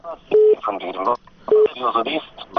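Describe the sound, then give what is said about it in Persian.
Two short, steady telephone tones sound as a listener's phone call is put through to a radio phone-in, each tone followed by a burst of talk on the line. “حالا شنونده ها را از طریق تلفن بگیریم.”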